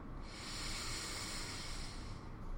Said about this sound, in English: And take a deep breath in.